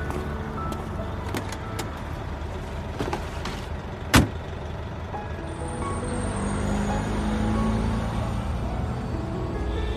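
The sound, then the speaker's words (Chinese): A single sharp clunk as a taxi's rear trunk is opened to load luggage. It stands out once over the steady low hum of the idling car. “那个师傅，您把后面车厢打开一下，我要放行李。”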